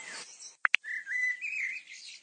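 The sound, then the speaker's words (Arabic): Blackbirds and sparrows singing in a rainforest: two sharp, quick chirps stand out over a high hiss, followed by a thin, sustained warbling tone that wavers slightly in pitch. “أصوات الطيور في الغابات المطيرة، أشحروري والعصافير، زر.”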